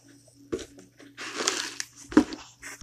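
A raffle ticket is drawn from a container, with papery crinkling and rustling in several quick bursts of varying loudness, separated by short quiet gaps.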